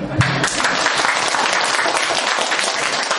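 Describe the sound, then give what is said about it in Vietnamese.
Applause from an audience at a Buddhist dharma talk: crisp, dense clapping that starts abruptly and stays loud and uneven for about three seconds. “Vỗ tay A Di Đà Phật. Vỗ tay.”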